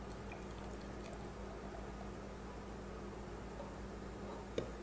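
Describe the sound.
An espresso shot pours into a pitcher as a faint, steady liquid trickle over a constant low machine hum, with a single small click near the end.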